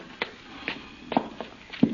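Footsteps climb a staircase, landing as several moderate thuds at an uneven walking pace, with no talking.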